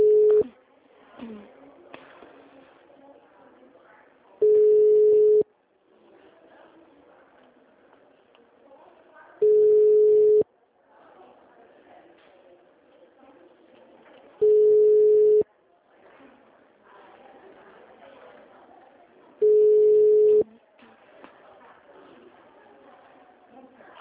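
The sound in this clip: A telephone busy signal: five long, steady, mid-pitched beeps about one second each, spaced roughly five seconds apart, with a recorded voice speaking between them.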